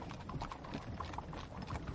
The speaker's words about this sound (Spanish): Golpea el cristal. El carruaje se pone en marcha.